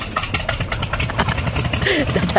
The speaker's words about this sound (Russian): Маэстро, будьте добры, запускайте мой двигатель и меня вместе с ним, словно бумажный самолетик в небо.